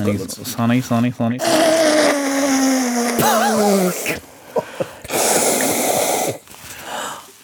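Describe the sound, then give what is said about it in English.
A nose being blown into a tissue: after voices talk, two rough, breathy rushing bursts follow, loud and forceful, with a short pause between them. “Let me blow my nose quickly, hang on.”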